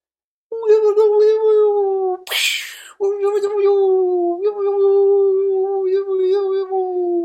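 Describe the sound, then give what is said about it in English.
A human voice imitates a whale call with long, steady, moaning tones, loud and alone. A short breathy burst splits the call into two sustained stretches. “Here's the sound of that whale.”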